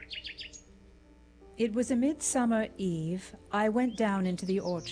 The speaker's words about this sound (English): I heard a nightingale singing in the woods far away.